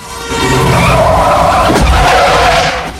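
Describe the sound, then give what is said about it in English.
Loud, prolonged tire screech as an ambulance brakes violently and skids and swerves across the road, the squeal holding for a couple of seconds with a brief sharp thud partway through before it fades. “brakes violently and the vehicle swerves all over the road, bouncing off another car”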